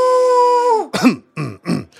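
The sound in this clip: Theatrical, voiced throat clearing and coughing from a performer in a comedic skit: a long held vocal tone slides down in pitch, then a few gravelly, harsh bursts follow in quick succession.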